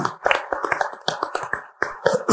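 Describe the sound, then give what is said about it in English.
Scattered hand claps from an audience at a regional economic development gathering honoring local media sponsors. The claps come as sharp, irregular bursts rather than a continuous roar. “And big round of applause.”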